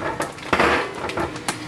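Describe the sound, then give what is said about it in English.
A small optional metal rack for a cooker clatters as it is handled, giving a few short, bright clanks and clicks at an uneven pace with quieter rustling between them. “That sound was the little optional rack that can come with it.”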